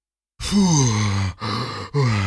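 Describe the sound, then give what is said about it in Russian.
Heavy groaning and strained panting from a figure who has just escaped a chase on foot. Three long voiced exhalations with wavering pitch follow one another closely, loud and with no other sound. “Фу, еле убежал. Тяжело дыша, прокряхтел Водяной. Совсем разучился бегать.”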